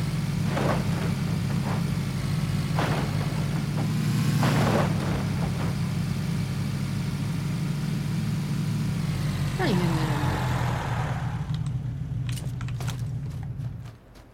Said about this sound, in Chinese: 怎么门口有个摩托？